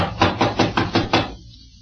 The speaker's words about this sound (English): Door's locked, all right. Well, let's try knocking.